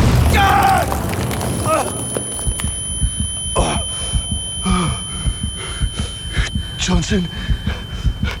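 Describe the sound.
A grenade explosion lands as a heavy, rumbling boom over the first two seconds, mixed with voices. Many rapid, rhythmic thuds and sharp bursts follow.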